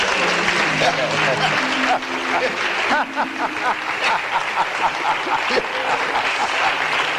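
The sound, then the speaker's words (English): A church audience claps in welcome for a guest during a service: dense, steady applause throughout, with voices and talk mixed in over the clapping. “Let's give him a good hand clap for welcome.”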